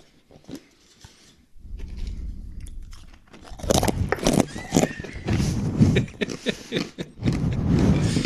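Dried banana is bitten and chewed, giving a string of crisp, irregular crunches and chewing sounds of varying loudness, heard alone without talk.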